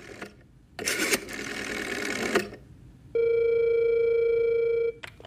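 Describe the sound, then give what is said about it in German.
A telephone is dialed at a desk: two bursts of buzzy mechanical whirring are followed by a steady electronic tone lasting nearly two seconds, and a short click closes the sequence. “Er geht zum Schreibtisch und wählt.”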